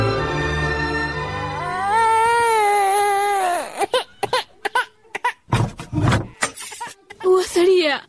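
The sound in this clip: A sick infant who has not slept and will not feed cries in a long, wavering wail, then breaks into choppy, sobbing bursts with short pauses.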